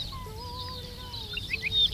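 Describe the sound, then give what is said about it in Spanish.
Dupont's lark singing: thin, drawn-out whistled notes that hold steady or glide slightly, with a few higher chirps, faint over a low background hiss. “Ricotí, se llama como tal porque es una emulación de la onomatopeya que produce en el canto, el titutí.”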